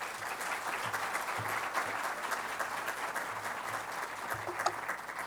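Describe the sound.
Audience applause welcomes a guest speaker at a church gathering: steady, dense clapping from many hands, sustained evenly throughout without voices.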